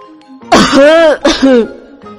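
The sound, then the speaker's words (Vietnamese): A voice imitates a man choking on a drink while holding a cup: two loud, harsh, voiced throat-clearing coughs in quick succession, heard alone. “Lần này đến Bạch Ngọc Đường sặc, tay cầm chén vừa ho”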